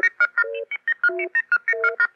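A radio network's electronic beacon tone plays as a rapid, even sequence of short synthetic beeps, steady pitches repeating in a pattern broken by a few lower sustained tones, fairly loud and alone.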